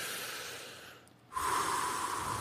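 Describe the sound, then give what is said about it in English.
A group takes a deep breath together, heard as a long airy rush of breath, a brief quiet lull, then a louder, fuller rush of breath. “Let's take three deep breaths.”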